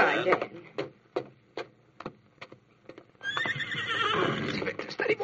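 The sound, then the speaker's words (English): A ridden horse at a ranch entrance gives a long, loud, quavering whinny after several sharp, separate hoof clops. “Victor, steady, boy. Come on, Victor. Dan, who had been trained to follow a trail, rode to the entrance of the ranch”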